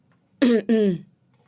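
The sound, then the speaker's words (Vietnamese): Two short, harsh coughs from a man, close together and fairly loud against near silence, with no talk around them. “Anh ta ho lên vài tiếng.”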